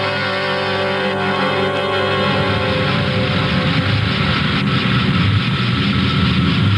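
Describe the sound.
Aircraft engines idle at an airport near Saigon, making a steady, loud, continuous drone with a low rumble and layered hum that holds unchanged throughout.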